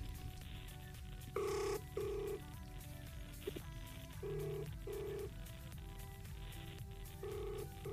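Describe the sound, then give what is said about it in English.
A telephone rings after dialing, heard as faint double rings. Two pairs of short tones and the start of a third come at a steady rhythm over a low background hum. “I'm going to dial Komojo now.”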